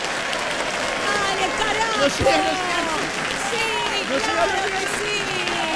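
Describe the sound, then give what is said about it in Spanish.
Applause sound effect, steady and continuous, with several people talking and calling out over it throughout. “Poneme más audio de aplauso.”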